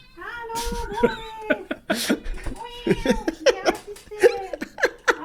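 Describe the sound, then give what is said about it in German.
A male pet cat meows repeatedly at home after its owners were away for two days, giving many short, rising and falling cries mixed with people's laughter and some talk. “der Katze hat uns natürlich vermisst, weil wir 2 Tage nicht da waren”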